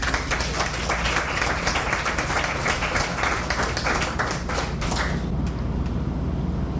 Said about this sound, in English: Give Marinus another hand.